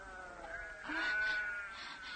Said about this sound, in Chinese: 来，我帮你们打水给羊喝。